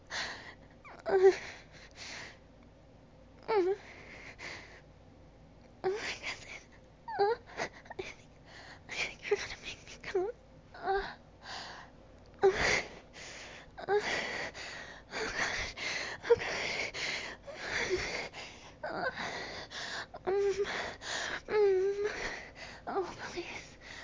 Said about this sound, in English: My mouth and my gasps and my breathing getting quicker and quicker.